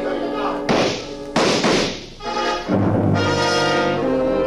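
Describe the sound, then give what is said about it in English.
Gunshot fired in a street, said to carry pellets like a shotgun blast: two heavy, booming thuds strike sharply over steady tonal sound that continues throughout. “I saw the gun flash as it fired, and Theophilus slumped to the pavement.”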